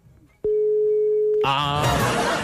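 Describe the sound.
A phone call rings out unanswered: one steady, loud ringback tone lasting about a second, then an abrupt burst of dense, loud sound that carries on to the end.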